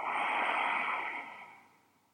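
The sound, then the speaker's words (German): A deep, slow breath during a belly-breathing relaxation exercise: one long, airy breath of soft hiss that starts fairly strong and gradually fades away, with no talking. “Leg mal deine Hand auf deinen Bauch, atme tief ein und tief aus.”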